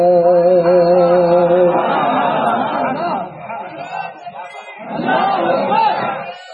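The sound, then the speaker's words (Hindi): A crowd chants religious slogans in unison during a religious speech. A single sustained voice comes first, then the loud collective shouting swells, dips and surges again. “मेरी तकरीर में नारे shortcut में लगाया करो ताकि मैं ज्यादा बोल सकूं।”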